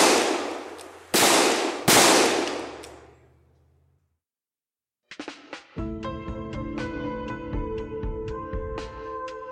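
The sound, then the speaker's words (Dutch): Three loud, sharp gunshots fired at close range, each with a ringing decay, then silence. After the pause come scattered metallic clicks and a sustained tonal ringing. “En daarna schiet hij Miremet van dichtbij dood.”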